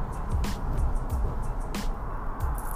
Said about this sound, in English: Sorry if you hear outside wind.